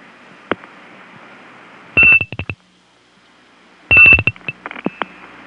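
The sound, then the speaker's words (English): Telephone dialing and a bell rung on the line to break into a non-working number: two tight bursts of sharp clicks with a high ringing tone, separated by a quiet stretch of faint line hiss. “I'm going to break into it by dialing 00 in front of the first two digits and then ringing the last two with my bell.”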